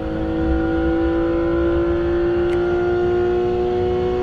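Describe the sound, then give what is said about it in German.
Steady engine drone of a Porsche sports car in a video game, a constant, even hum with layered tonal harmonics holding level throughout, with no clear rise or fall. “Guck mal, was ist mit dem Ding los? Das geht ja wie Sau. Geht der Porsche richtig hier? Guck, der fährt an uns vorbei.”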